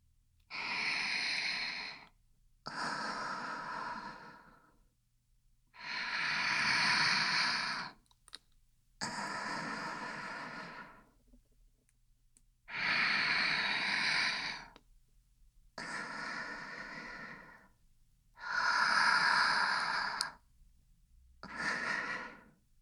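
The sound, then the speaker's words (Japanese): Slow, deep human breathing, each soft breath drawn out over about two seconds, then a quiet pause, repeating at an even, unhurried pace throughout. “どうしても辛かったら、ゆっくり深呼吸して。”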